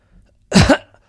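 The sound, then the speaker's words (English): A single cough straight into a microphone: one loud, rough burst lasting about a third of a second, alone with near silence around it. “I'm coughing right into the microphone”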